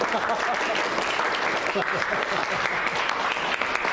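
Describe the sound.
Office colleagues applaud to welcome a visitor asking him to say a few words, dense steady clapping for about four seconds at an even level.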